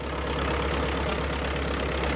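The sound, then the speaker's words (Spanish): Steady, loud engine drone from a biplane as it begins its takeoff run, an even, unbroken roar with no voices. “El avión inicia la carrera de despegue.”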